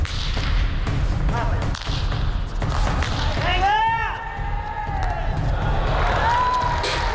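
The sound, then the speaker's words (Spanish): Dull ball thuds ring out during a pelota (handball) match in the historic Beti Jai court in Madrid, set against a steady crowd murmur, with people calling and talking throughout. “lo primero que hacemos es escuchar cómo suena, en este caso, un partido de pelota en ese recinto histórico.”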